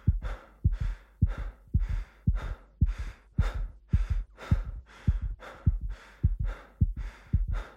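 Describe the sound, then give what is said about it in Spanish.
A heart pounds hard under extreme stress, joined by laboured breathing: many steady, evenly spaced low thumps, each with a rush of breath above it, loud and continuing throughout with no voices. “lo único que se alcanzaba a percibir era su corazón palpitando con fuerza y su dificultad para respirar.”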